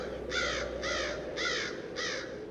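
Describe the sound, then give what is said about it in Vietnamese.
Four harsh, rasping caws from frightened crows flying up from tree branches, evenly spaced over a steady low background noise. “Lũ quạ đậu trên cành cây, thấy người đàn ông lầm lũi bước đi, làm rung chuyển một vùng cỏ lau, thì sợ hãi đập cánh bay vút lên cao, cất lên những tiếng quan quát trợn người.”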